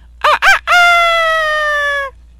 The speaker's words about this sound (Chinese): 公鸡叫了，你也应该起床做早操了吧？